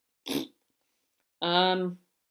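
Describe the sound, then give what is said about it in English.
A voice imitates a fart by blowing a raspberry with the tongue: a brief breathy puff, then a longer buzzing, flapping tone, with silence around them. “Yes, that was my fart noise with my tongue.”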